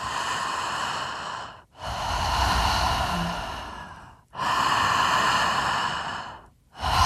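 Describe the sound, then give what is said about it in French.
Circular breathing shown into a microphone: loud, airy breath sounds run almost without a break. There are only a few brief dips where inhaling and exhaling switch over. “C'est un souffle qu'on appelle continu ou circulaire. Ça veut dire qu'il n'y a pas de pause entre l'inspiration et l'expiration. Il n'y a pas de pause entre l'expiration et l'inspiration. Je te donne une démo, tu vas l'entendre dans le micro.”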